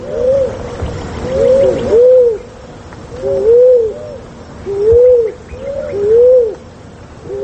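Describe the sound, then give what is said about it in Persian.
Turtle dove cooing, soft low rounded coo phrases repeated in a slow, steady rhythm with brief pauses between them, with no other voices. “شنونده های عزیز، اکنون درباره قمری، پرنده خوش سیما و خوش صدا که به رنگ نسواری یا صورتی مایل به خاکی است”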